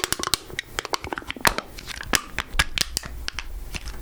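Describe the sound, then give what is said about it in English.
An empty soda can being crushed by hand, giving many sharp, irregular metallic crackles and crinkles in quick succession, with no talking. “So I've got this can right here. I just drank all of the soda out of it, and now I will crush it for you.”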